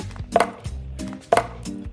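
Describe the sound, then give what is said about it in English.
Frozen coconut milk ice cubes drop into a blender jar as two sharp, hard clunks about a second apart, with fainter knocks and rattles between them. No voices. “So we want to get about one cup of the frozen coconut milk ice cubes into the blender.”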